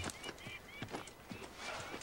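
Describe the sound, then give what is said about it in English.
Frightened horses near a soldiers' camp: faint hooves clop in a quick, uneven rhythm as the animals shift and stamp, with a few sharp knocks standing out from the soft, noisy background. “The soldiers dash from the camp to grab the reins of the frightened steeds.”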